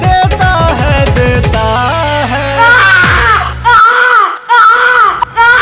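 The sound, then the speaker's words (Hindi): An infant wails in a few loud, wavering rising-and-falling bursts, taking over from a stretch of synth and percussion music in a Bhojpuri pop song. “बिचही में बबुआ रोता है, mood खराब कर देता है।”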